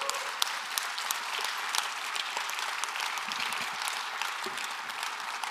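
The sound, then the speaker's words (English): A church audience claps during a worship service, producing a faint, even wash of many hands clapping at once that continues steadily for over five seconds with no clear pauses. “Would you clap for the man of God and the woman of God?”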